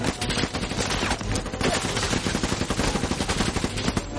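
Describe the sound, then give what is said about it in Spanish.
Rifle gunshots fire outdoors near a fallen tree. The sharp, loud cracks come in a rapid, dense volley of many shots with no real pause. “Jack avanza hacia el árbol caído disparando. ...Allison permanece tumbada. Él carga de nuevo el arma. Ella cambia de posición. Jack dispara.”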